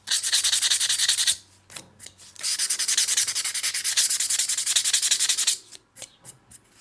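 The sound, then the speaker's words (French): Rasping sanding of porcelain bisque, smoothed to a soft, even finish: a loud, steady scrubbing run, a brief pause, then a longer sustained stretch, ending in a few short, separate strokes over a low hum. “Ponçage biscuit pour avoir un aspect doux, lisse. Il peut y avoir deux étapes de ponçage.”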